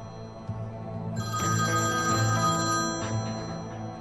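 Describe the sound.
A telephone rings with a call from work. A steady, bright ringing tone swells in and holds for about two seconds before easing off, with no voices.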